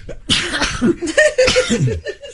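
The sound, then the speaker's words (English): A person sneezes in two sharp, breathy bursts, mixed with throaty, cough-like vocal sounds. “Bless you. The greatest plug in the history of broadcasting. Sturgis is so exciting that it's given me sneezes. I've got the sneezers.”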